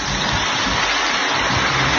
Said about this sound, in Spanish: como el agua está rugiendo, algo tremendo